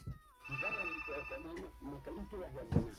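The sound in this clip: A telephone rings faintly for an incoming caller, its high, steady tone partly masked by a talking voice throughout.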